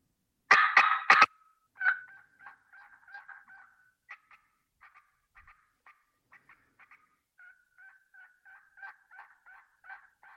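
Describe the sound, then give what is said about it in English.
A turkey call is worked through a cut-and-yelp sequence: a few sharp, loud popping cuts come first, then a long run of softer, evenly spaced yelp notes with dragged-out endings, each note brief and raspy. “If you're going to cut and then yelp, then you have to produce those popping notes and then drag the note out to create the yelp, like so.”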